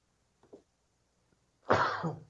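Coughing from someone whose drink went down the wrong way. Two faint, short throat sounds come first, then a loud, harsh coughing fit with two strong surges before it dies off.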